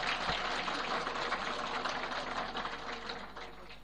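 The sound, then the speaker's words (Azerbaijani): Clapping from a gathering in honour of the elders, a steady crackle of many hands that holds evenly at first and then slowly thins and softens toward the end. “Məclisdə axsəkkəllərin sağlığına bir dənə əl çalıb mən başlayayım.”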